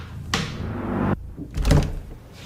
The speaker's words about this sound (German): öffnet sie eine schwere Sicherheitstür und ist angekommen.